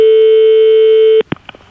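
A telephone line tone sounds as a call is placed: a steady, unbroken electronic beep holds at one pitch for just over a second and then cuts off abruptly. A few faint clicks follow on the line.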